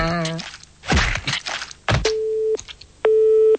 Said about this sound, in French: Bah, il a raccroché.